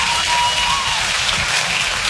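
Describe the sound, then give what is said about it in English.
Audience applause at a live comedy show; continuous, evenly dense clapping with a hiss like rain, with no voices standing out. “You're damn right you should applaud.”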